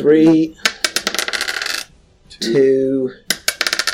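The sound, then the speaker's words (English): Four four-sided dice clatter across a surface during a tabletop role-playing game. Two bursts of quick, hard, rattling clicks are separated by a short pause. “So roll the 4 d4s.”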